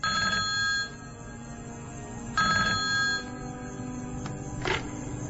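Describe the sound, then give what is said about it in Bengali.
A phone rings at around two in the middle of the night with bursts of trilling electronic ringing separated by pauses, over a steady background hiss. “হঠাৎ তার phone বেজে উঠল।”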